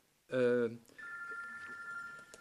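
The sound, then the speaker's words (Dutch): A mobile phone rings: a brief, bright, harmonic-rich tone burst, then a steady, sustained high ringtone note that carries on to the end. “Dat is mijn telefoon, die zal ik meteen even...”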